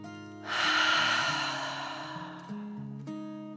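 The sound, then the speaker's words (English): A deep, slow breath taken in and let out, heard as one long airy rush that swells and then gradually fades over soft, sustained musical tones. “She took a deep dragon breath in and out.”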